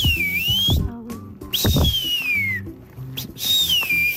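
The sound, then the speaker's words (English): An eastern wood pewee flycatcher sings three clear, slurred whistles in tall hardwood forest: a dipping then rising phrase, a long falling one, then another dipping and rising phrase, over a low background rumble. “it's the one of my favorite flycatcher, the eastern wood peewee, and you can hear him.”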